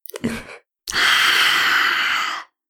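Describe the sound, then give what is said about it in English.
A strong, forceful exhale follows a brief, softer breath sound. The breath out is a loud, airy rush lasting over a second before stopping abruptly. “Breathe in. With us. Strong exhale.”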